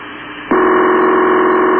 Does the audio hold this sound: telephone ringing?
yes